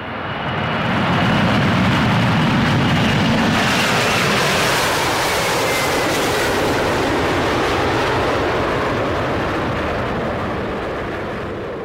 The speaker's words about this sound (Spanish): ¡Despegamos!